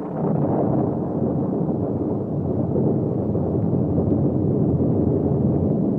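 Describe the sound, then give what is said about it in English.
An explosion shaking the ground and loosened rocks tumbling down a hillside give a loud, continuous low rumbling roar that holds steady throughout, with no talk. “A terrific blast shook the ground just ahead of Silver and the Lone Ranger. The loosened rocks began to tumble down the side of the hill.”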